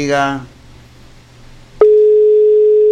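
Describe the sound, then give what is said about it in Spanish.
A telephone tone on a call that will not connect: a brief voice, a quiet pause, then a single loud, steady, unbroken pitched tone that runs to the end. “La llamadita quiere entrar, pero no sé por qué no entra.”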